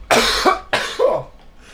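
Two harsh, loud coughs from someone who breathed in spicy, burnt smoke from cooking. The coughs are separated by a short pause, and the second trails off into a faint breathy rasp.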